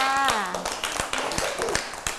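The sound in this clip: Clapping for a young child on a children's program, a brief voice followed by a few sparse, uneven hand claps and taps, fairly faint.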